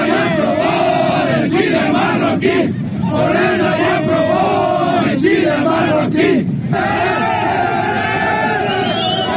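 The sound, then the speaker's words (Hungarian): Moroccan football fans celebrate a World Cup penalty shootout win over the Netherlands with a loud mass of chanting, shouting voices that holds steady, dipping briefly a few times before surging back. “Így ünnepeltek a marokkói szurkolók, miután hazájuk válogatottja 1-1-es rendes játékidőt követően 11-es párbajban legyőzte Hollandiát”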